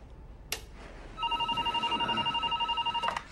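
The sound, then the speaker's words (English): Telephone ringing: an electronic ring with a rapid, pulsing warble holds steady for about two seconds, after a single short knock. “I'll call Howard. Mirzwak answers his phone.”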